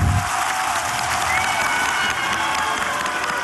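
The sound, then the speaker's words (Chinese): Dense, loud applause from an audience at a competition show, sustained evenly from start to finish. “接下来，让我们用热烈掌声欢送两位，希望你们再接再厉，加油！”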